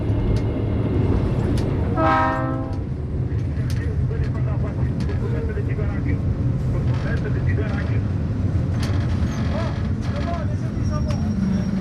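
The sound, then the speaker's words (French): Freight train arriving at a desert goods station near Zouerat: a continuous heavy rolling rumble with one horn blast near the start, while a man talks over it. “Là, on va arriver sur la gare de Zouerat. C'est pas une gare, c'est qu'une gare marchandise, à quelques kilomètres de la ville de Zouerat.”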